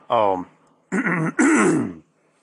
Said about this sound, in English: So, if I cough a couple times, I apologize. But anyway, get the one out of the way.